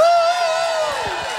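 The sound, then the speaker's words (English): Live show audience cheering, opening with a sustained whoop that fades into a mixed crowd noise of shouts and scattered clapping at a moderate level. “Big round of applause to Shannon Knoll.”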